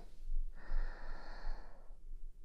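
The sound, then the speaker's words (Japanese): A deep inhaled breath: one long, soft, airy rush lasting about a second and a half. It is steady and unbroken, with no talking. “たくさん深呼吸してください。はい。吸って。”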